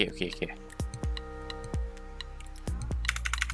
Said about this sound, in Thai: แล้วก็ Ctrl Save ไปครับกด Run